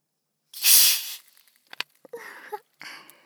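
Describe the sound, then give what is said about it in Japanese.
Carbonated water bottle being opened: one loud, bright burst of fizzing hiss, followed by a few light clicks and softer, thinner fizz. “刺激といえばこれ、炭酸水。”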